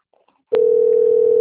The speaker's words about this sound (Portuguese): aí toca e cai a linha